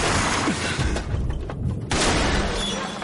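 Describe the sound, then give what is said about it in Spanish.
A crash into a barricade of wooden spikes in the post-apocalyptic zombie thriller Extinction. A loud, noisy impact and clatter briefly dips, then the harsh roar resumes. “Choca contra ella y sale disparado volcando la mano.”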